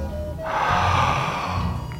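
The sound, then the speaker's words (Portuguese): A single forceful hissing inhale from suction breathing, air sucked hard through a wide-open mouth with the tongue tip on the palate, a rushing breath lasting about a second over low background hum. “Respiração de sucção. Com a boca bem aberta, Coloque a ponta da língua no céu da boca e sugue o ar com força.”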